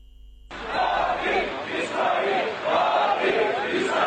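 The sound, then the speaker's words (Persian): An angry crowd of protesters chants and shouts in Ankara, Turkey, at a demonstration over the Al-Aqsa mosque. Loud massed voices burst in abruptly after half a second and surge in rising and falling waves. “این صدای خشم و انزجار مردم ترکیه از رژیم صهیونیستی است.”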